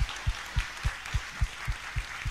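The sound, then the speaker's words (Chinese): Quiet applause from an audience giving praise at a church service: a soft wash of clapping over many evenly spaced low thumps that keep a steady beat throughout. “我们大大掌声归给我们的主，哈利路亚。”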